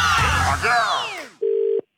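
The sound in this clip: A brief steady telephone line tone sounds while a call is being dialled, a flat mid-pitched hum lasting under half a second, coming after a busy stretch of gliding, falling tones.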